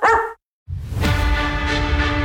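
A single short dog bark opens a pet-supply store advert jingle, followed by a brief silence and then sustained music.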